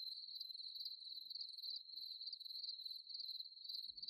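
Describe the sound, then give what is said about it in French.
Grasshoppers and crickets chirring across a meadow, a continuous high-pitched, metallic, rapidly pulsing buzz, faint and steady with no other sounds. “Le bruissement lancinant et métallique des régiments de sauterelles, de grillons, de locustes et autres courtières, disséminés par myriades sur les herbes de la prairie.”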